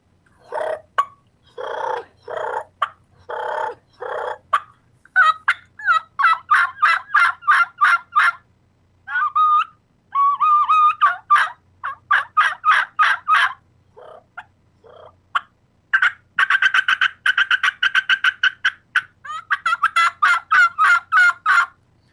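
A turkey gobble imitated on a raspy bat-wing diaphragm mouth call: many quick, loud rattling bursts fall into a series of clipped groups, with brief pauses between them and nothing else heard.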